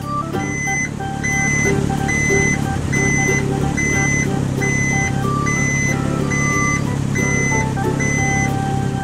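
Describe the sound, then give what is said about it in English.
Reversing beeps from a garbage truck sound as a regular series of high, piercing tones, roughly one per second, over a steady, loud engine rumble. “Green garbage truck.”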